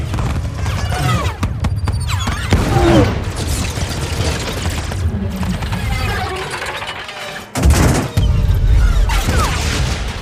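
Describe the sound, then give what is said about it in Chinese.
Starship phaser cannons and torpedoes fire in a dense, continuous barrage of booms, mechanical clatter and sweeping electronic tones. The noise dips briefly near the end, then resumes loudly. “长官，我们的相位炮只起到了很小的作用，鱼雷也没法跟踪他们的移动。 所有武器全面开火。”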